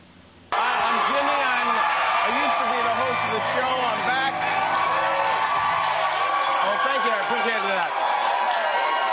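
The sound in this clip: Audience clapping and cheering as a speaker comes on stage, bursting in abruptly and holding loud and dense throughout, with whoops and shouting voices mixed into the applause.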